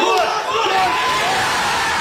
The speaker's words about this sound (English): The game was watched in pubs around the country. Times Radio's Max Scott went along to a sports bar to take it all in.